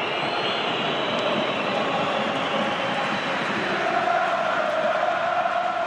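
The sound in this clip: Football crowd chanting in the ninth minute of a match at Stade de France, a tribute chant for a player: a dense, continuous roar of massed voices that holds steady and swells slightly toward the end.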